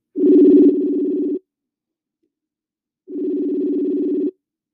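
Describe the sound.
A telephone rings on an outgoing call while the caller waits for the other person to pick up: two long, steady, buzzy ring tones with a silent gap between them and no talking.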